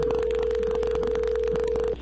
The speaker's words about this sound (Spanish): vamos a llamarle a tu esposa Gloria, Eddie, y vamos a ver si te manda los chocolates a ti